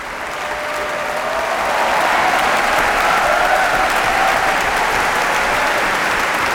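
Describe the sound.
Audience applause fills the hall after a prize-winners' orchestral concert by the Brussels Philharmonic in Brussels, following a Shostakovich concerto. The clapping is dense and loud, swells over the first two seconds, then holds steady and unbroken.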